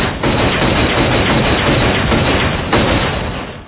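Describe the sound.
Gunfire sound effect: a loud, dense burst of harsh noise that holds steady for a few seconds before fading slightly at the end.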